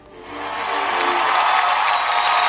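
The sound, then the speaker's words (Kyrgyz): Audience applause swelling in after a brief voice at the start, building over the first half second into a full, steady wash of clapping that holds to the end. “Баракелде. Кол чабуулар менен болсун.”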